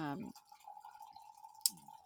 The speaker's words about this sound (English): are you pouring coffee?